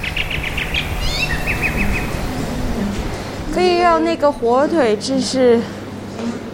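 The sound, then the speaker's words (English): Birds sing in a nearly empty Shanghai street normally choked with cars and bikes: a few faint, high chirps and short trills at the start, followed by a voice speaking. “You can finally hear the birds sing.”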